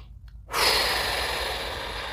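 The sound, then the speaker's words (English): Deep breathing practice, in through the nose and out through the mouth: one long, airy breath starts abruptly and holds steady for well over a second, alone and fairly soft. “the technique is you just want to breathe deeply in through the nose, out through the mouth.”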